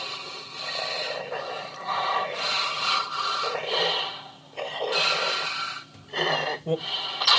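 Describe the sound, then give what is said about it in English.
A voice imitates Darth Vader's heavy breathing, with several loud, rasping inhale and exhale cycles in a slow, steady rhythm. “Carl, our producer, just came to me and said that I breathe too heavy and I sound like fucking Darth Vader. So here's my tribute.”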